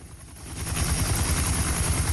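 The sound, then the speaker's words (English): A helicopter passes overhead, its rotor producing a rapid, low thumping beat that swells over the first second and then holds loud and steady. “A chopper flies over the two of them.”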